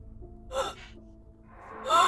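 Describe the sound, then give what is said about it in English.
A woman gasping for air as hands grip her throat: two sharp, strained gasps, the first short and the second longer and louder, with quieter ragged breathing between them. “We see her eyes flash open, and you see her starting to gasp”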